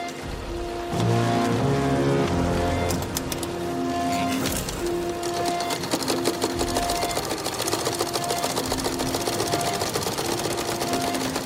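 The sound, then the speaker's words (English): Sewing machines whir in rapid, steady bursts during a film scene, layered under an abrasive musical score of sustained, droning tones that carries on throughout. “So you're going to hear the sewing machines in this clip and also the abrasive score that recurs throughout the film.”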